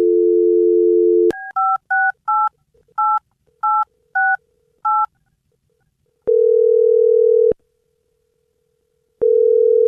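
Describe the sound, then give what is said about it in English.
A telephone number is dialed on a keypad: a steady dial tone, then a quick series of several dual-pitched touch-tone beeps at irregular spacing, followed by two long, loud ringing tones with a pause between them. “I'm going to dial the number, and then Alex is going to call”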